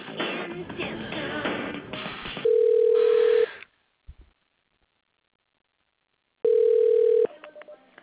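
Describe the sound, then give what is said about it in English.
Telephone ringback tone as a call is transferred to an office extension at a furniture company. Two steady, buzzy tone bursts about three seconds apart, each lasting around a second, with silence between them. “Transferring to extension 500. One moment, please.”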